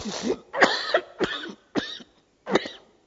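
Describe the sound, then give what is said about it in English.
Harsh, rapid coughing from a person with asthma: a series of short, loud hacking bursts separated by brief gaps, with no talk in between. “sorry about that, I won't fall over dead. But you know what, I get asthma and I cough”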